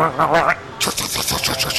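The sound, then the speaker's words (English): Gears on a small homemade machine grind against each other, shimmed so they catch, producing a harsh, rattling mechanical scrape with rapid irregular clicks after a brief voice at the start. “So I actually did have like a couple gears that I shimmed so they would grind each other just so I could be like, what's grinding your gears?”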